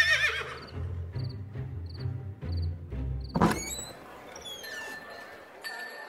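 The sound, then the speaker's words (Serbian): A horse lets out a loud, wavering whinny partway through, after a series of steady, low rhythmic thuds with faint high chirps over them. “Don Kihot sjahao s teškom mukom, rekao je odmah krčmaru da se o njegovom konju brine, što je mogućno više, jer je to najlepša životinja na svetu.”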